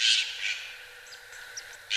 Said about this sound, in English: I figured out that when I hear this jay call,